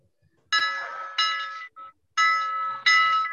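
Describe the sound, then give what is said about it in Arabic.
A harbour bell rings to signal an accident, sounding in several bright, sustained ringing bursts separated by short gaps, loud against near silence. “سامعين؟ سامعين؟ في ايه؟ ده صوت جرس المينا، ده معناه ان في حادثة حصلت وفي واحد مصاب.”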